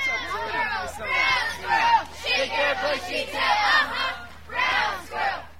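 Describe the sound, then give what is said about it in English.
Children aged 8 to 15 at a summer camp for military families shout and holler together in loud group bursts, swelling and fading several times with short lulls between. “They are, of course, typical 8 to 15-year-olds, which means they make a lot of noise.”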